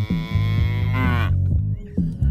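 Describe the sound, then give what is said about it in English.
A cow mooing: a few loud, low, drawn-out moos with a strong harmonic tone, following one another closely with no talk. “And the cow that goes meh.”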